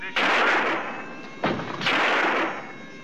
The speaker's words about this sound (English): Yes, I've just shot the only man in this room who could have saved our lives.